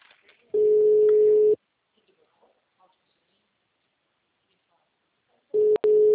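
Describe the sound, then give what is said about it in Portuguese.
Ringback tone of a telephone call being placed: a steady single-pitched tone sounds for about a second, then silence, then the tone returns near the end with a couple of sharp clicks over it. “Espera que eu vou fazer uma ligação.”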